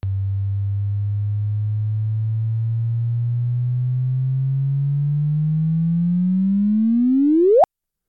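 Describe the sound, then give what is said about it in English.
A synthesized gravitational-wave tone represents two non-spinning black holes merging. A low pure hum slowly climbs in pitch and loudness, then sweeps sharply upward in a final chirp and cuts off abruptly. “Yes, those were two non-spinning black holes coming together.”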